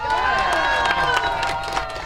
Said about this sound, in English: A thrilled crowd at the Irish Moshing Museum in Scituate was challenged to lift a 254-pound rock shipped here from Ireland. A couple spectators got it done.